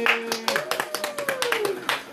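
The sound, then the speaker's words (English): Thin, scattered applause at a comedy lounge show, a handful of separate claps in an uneven rhythm over a sustained tone of background music. “I want to do that one more applause. That is the saddest applause.”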